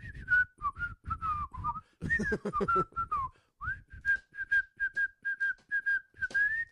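Melodic whistling of a sitcom's theme tune: a quick run of clear, bright notes that rise and fall in a catchy phrase, with brief pauses between sections and no talking.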